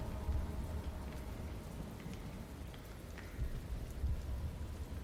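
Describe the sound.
Steady rain falling, a continuous soft hiss and patter with a low rumbling undertone that holds evenly throughout, no voices.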